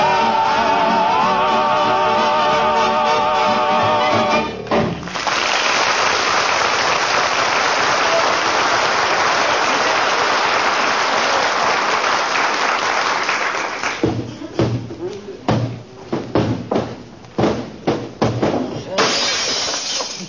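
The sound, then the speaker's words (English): A mirror slips from someone's hand in the hall and shatters. The loud crash of breaking glass spreads into a long, dense spray of clattering shards that lasts several seconds, then gives way to a run of shorter, choppy bursts. “I was just cleaning the mirror in the hall, kiddo. Slipped out of my hand. That other noise you heard a minute ago was when I stuck the broom handle through the wall plaster.”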